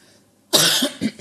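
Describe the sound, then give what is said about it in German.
A single cough into a microphone, sharp and fairly loud, followed by a short second burst, with no talk during it. “Hast du noch gar nicht ins Mikro gehustet, was ist los?”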